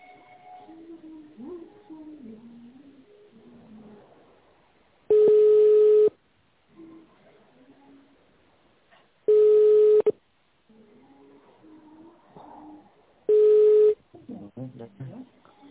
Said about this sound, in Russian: Для соединения с сотрудником наберите внутренний номер или дождитесь ответа.